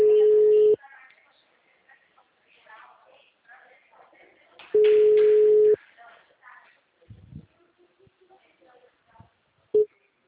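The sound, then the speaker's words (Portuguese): Ringback tone on an outgoing phone call: two long, steady mid-pitched tones several seconds apart, then a brief clipped tone at the end. Faint talk and small noises fill the gaps between the tones. “Eu só quero ligar para essa mulher para ver se ela me atende.”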